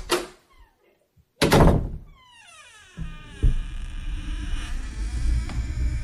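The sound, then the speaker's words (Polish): A toilet door opens with a short burst of movement, then two heavy thunks of the door, after which a sustained low hum carries on underneath. “Otwarcie drzwi toalety i tak go jednak zaskoczyło.”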